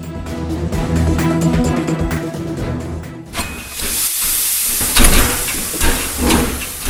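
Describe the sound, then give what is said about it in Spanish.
Loud, broad hissing of an 1857 steam locomotive pulling a small passenger train in Buenos Aires. The hiss breaks in midway after a rhythmic low rumble and keeps surging unevenly to the end. “la locomotora llamada La Porteña, que arrastra un pequeño convoy de pasajeros”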